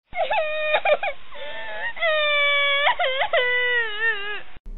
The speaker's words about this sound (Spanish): La pobre niña comenzó a llorar amargamente.